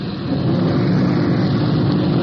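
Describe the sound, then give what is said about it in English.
Engine rumble of a police car rolling in second gear on slick streets: a loud, steady low drone with broad road hiss, unbroken throughout and without voices. “The streets are just a bit slick. We have to sort of watch our traction. Rolling a lot in second gear.”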